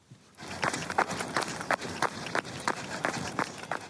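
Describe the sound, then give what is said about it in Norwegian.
Footsteps of a young woman jogging along a deserted road: many steady, evenly spaced footfalls in a quick running rhythm, clear over a constant background hiss. “En ung kvinne er på joggetur på en øde veistrekning.”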